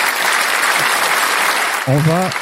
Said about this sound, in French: Et le public est on fire, ouais. Quoi. Il applaudit tout le temps, c'est incroyable. Là, c'est un public Covid, hein.